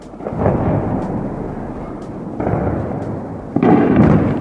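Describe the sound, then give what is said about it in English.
Phosphorus bombs explode over Duma in Eastern Ghouta with deep, rolling booms. A few heavy, rumbling blasts rise and fade one after another, each leaving a long, thunder-like roar. “That effect was caused by phosphorus bombs being launched by the Assad government.”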